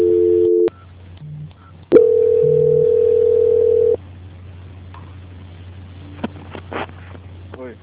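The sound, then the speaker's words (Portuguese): Telephone line tone during a call transfer: a short steady tone, a pause with faint line noise, then a longer unbroken tone of about two seconds, followed by low hum and hiss on the line. “Só aguardar na linha que eu vou estar fazendo a transferência.”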